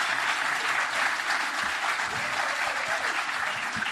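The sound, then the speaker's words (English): Audience applause greeting a producer, a dense, steady wash of many hands clapping that holds at an even, loud level throughout. “But please put your hands together again for producer Steve Hankey.”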